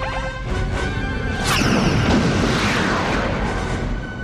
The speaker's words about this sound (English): With whatever force necessary, terminate that beam. Fire when ready.